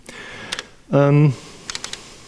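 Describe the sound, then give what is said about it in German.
Numbers being typed on a computer keyboard: a few light, crisp key clicks spaced apart, with a short voiced tone in the middle of the sequence. “Ich muss hier Zahlen eintippen.”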